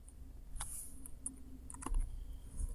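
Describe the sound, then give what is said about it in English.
Soft, scattered keystrokes as an account name is typed on a computer keyboard, a few faint clicks over a quiet background with no talk. “And I'm going to type the name of my Azure Data Lake store account here.”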